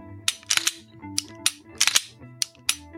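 Racking the slide of a Glock striker-fired pistol during dry-fire practice: a quick series of sharp metallic snaps and clicks, some in close pairs, fairly faint and with no talk.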